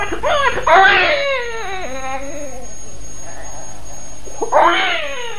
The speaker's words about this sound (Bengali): কাঁদতে দিন, একজন নারী হয়ে বুঝতে পারছেন না কিসের কান্না, গভীর মমতা আর ভালোবাসার স্রোত অশ্রু হয়ে বেরিয়ে আসছে।